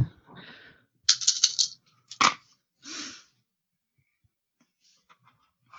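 Three purple dice rolling and clattering in a few sharp bursts of rattling clicks, with short gaps of near silence between them.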